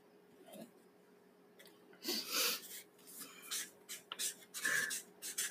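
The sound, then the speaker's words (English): Faint scratching of a pen drawing a line: several short, scratchy strokes on paper, soft and alone, with no talk. “Okay, so I'm just going to draw a line.”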